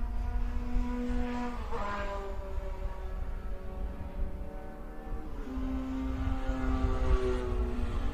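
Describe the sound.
Race cars roar past on the Buttonwillow track during an SCCA club race, a continuous buzzing engine drone whose pitch shifts as cars go by, with no voices.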